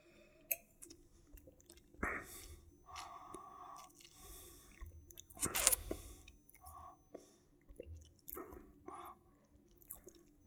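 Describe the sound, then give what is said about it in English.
Someone takes a swig of a drink during a tasting, making faint slurps, gulps and small wet mouth clicks scattered across several quiet seconds, with no talk. “I'm gonna reserve comment until I have another swig of it. I'm just waking up my palate.”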